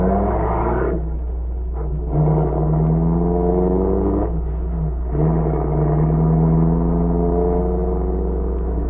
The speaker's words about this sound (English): the spies, Fortier and Grisanti, came out of the house across from the grocery store and drove away.